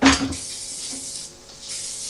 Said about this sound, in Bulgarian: Спрей!